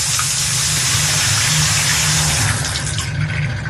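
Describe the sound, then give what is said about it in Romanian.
Water gushes from a shower tap in a Bucharest apartment block, turned to hot but running cold during an outage, as a loud, steady hiss that never pauses. “Dau drumul la apă caldă, dar bineînțeles că vine rece.”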